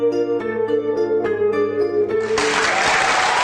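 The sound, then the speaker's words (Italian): Applause breaks out for an audience of physicists as Higgs boson data are presented, a dense burst of clapping that cuts in after a short passage of sustained tonal music and continues loud to the end. “Applausi di fronte ai fisici mondiali mentre Fabiola Gianotti dà i dati del bosone.”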